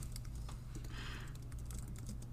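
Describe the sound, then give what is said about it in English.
Typing on a computer keyboard while writing a chat message: many light, irregular key clicks running continuously over a steady low hum. “Can hear you type.”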